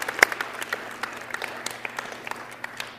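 Applause from a church audience welcoming guests during a service: steady, moderate clapping from a modest group, with some sharper individual claps standing out, continuing without voices throughout.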